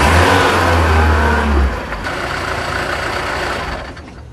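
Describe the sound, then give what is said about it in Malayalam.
A bus engine revs hard and loud for about one and a half seconds, then its deep drone cuts off abruptly, leaving a quieter, steady rumble that fades slightly at the end. “അയ്യോ, വണ്ടി പെട്ടെന്ന് നിന്നല്ലോ, എന്തു പറ്റിയോ ആവോ. Conductor, എന്താ വണ്ടി നിന്നത്?”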